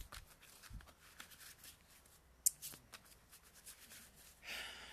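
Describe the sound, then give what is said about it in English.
A deck of cards being cut, with faint papery rustles and slides, one crisp snap near the middle, and a soft rush of card noise at the end. “I'm just cutting the deck.”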